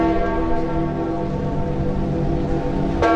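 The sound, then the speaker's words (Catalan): Church bells toll a death knell after a pope's death, a sustained, resonant hum of overlapping tones, with one fresh stroke ringing out near the end. “El toc de morts de les campanes de tot el món”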